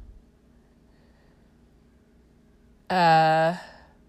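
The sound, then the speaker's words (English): A cat meows once, a short, clear, fairly loud call over a quiet background hum. “Sorry, the cat just meowed.”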